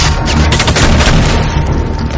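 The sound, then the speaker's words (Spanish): Gunfire in a 2013 action thriller film, as men open fire on a hooded woman: a loud, dense volley of rapid shots with heavy booming low end, sustained throughout with no voices. “¡Fuego! Y sus hombres disparan a la encapuchada sin éxito.”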